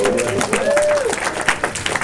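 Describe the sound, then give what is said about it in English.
Loud applause from a church audience, a dense wash of clapping with a cheering voice rising above it, spread evenly through the moment. “Let's give it up for our younger Christians.”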